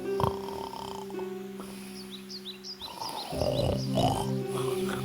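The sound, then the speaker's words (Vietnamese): Deep, rasping snores from a wolf sleeping under a tree in an animated fairy tale: a few long rumbling breaths over a steady tonal background, with light high chirps sounding above them. “Con sói nằm dưới một gốc cây và bắt đầu ngủ và ngáy.”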